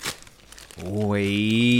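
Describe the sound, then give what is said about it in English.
Wrapping paper crinkles and tears briefly as a wrapped gift is opened, a short burst of crackling, after which a voice speaks loudly over it. “So I'm going to hand it over. You can unwrap it.”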